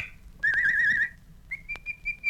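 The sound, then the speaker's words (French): Whistling to call the neighbour's dog: a warbling, trilled whistle, then a short pause and a steadier, sustained whistle on a similar pitch, clear and fairly loud with no talk. “Siffle le chien de la voisine.”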